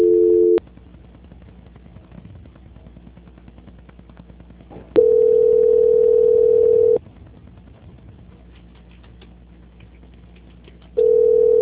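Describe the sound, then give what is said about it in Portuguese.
Telephone transfer tone on a payroll-loan customer service call: a steady mid-pitched beep sounds in long bursts separated by several seconds of near silence, with no talking. “Vai ficar mudo, mas a senhora permanece na ligação. Só um minuto. Transferência.”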